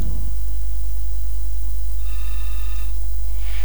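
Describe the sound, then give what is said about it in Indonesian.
Telephone ringing as a call comes in during a dangdut song request session, with faint high electronic ring tones entering partway through over a steady low hum and no talk. “ada telepon”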